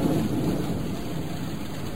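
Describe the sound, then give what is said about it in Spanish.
Rain falls in a steady, unbroken wash of hiss across the whole clip, with a low rumble underneath and no voices. “Y sigue lloviendo. Parece que no va a parar nunca.”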